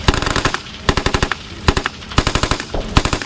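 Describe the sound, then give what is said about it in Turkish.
Military weapons firing during a live-fire exercise, with rapid automatic gunfire in several loud, sharp volleys separated by brief pauses. “Keskin nişancı tüfeklerinden obüslere, tanklardan insansız kara araçlarına kadar ateş gücünü sahaya yansıttı.”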